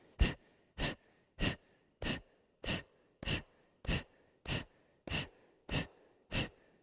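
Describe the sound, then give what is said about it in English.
Forceful exhalations during a seated breathing exercise: eleven sharp breaths pushed out in an even, rapid rhythm, each a short burst of airy noise. No speech between them. “Exhale, exhale, exhale, exhale.”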